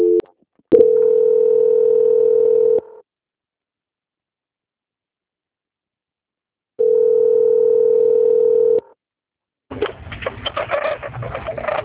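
Telephone tones while a call is transferred: two long, steady mid-pitched tones with silence between them, followed by a rougher burst of sound on the line.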